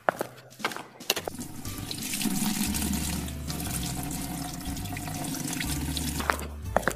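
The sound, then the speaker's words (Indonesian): Tap water runs steadily into a sink as hands are washed, a soft continuous splash lasting several seconds, bracketed by a few faint clicks and knocks at the start and end. “Oh ya udah deh, adik cuci tangan dulu ya.”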